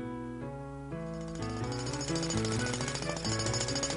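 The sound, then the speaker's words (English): Road repair work, with a jackhammer drilling holes in the road: a loud, continuous rapid hammering with a droning tonal hum that grows fuller partway through. “Down the street they went, past a very noisy place. They were fixing the holes in the road. What a racket.”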